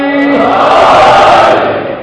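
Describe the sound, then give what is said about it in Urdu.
A crowd roars its response to a Naara-e-Haideri chant, many voices merging into one dense, loud, sustained shout that holds for about two seconds before easing slightly at the end. “ایک بار پھر مولا امیر مومنین کے نام پر نعرہ حیدری”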